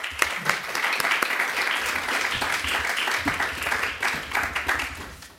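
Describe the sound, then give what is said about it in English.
Audience applause welcoming a speaker to a lecture: warm, dense clapping that swells and ebbs in waves before tapering off at the end. “Please give a warm welcome to Dr. Thomas Heckhammer.”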